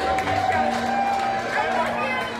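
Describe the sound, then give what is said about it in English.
A crowd roars in a loud, sustained ovation welcoming veterans home at an airport, a dense wall of cheering and hubbub that holds steady throughout. “On their return to Midway, the 93 vets of Operation Her Story were greeted with a high decibel ovation that lasted nearly 30 minutes.”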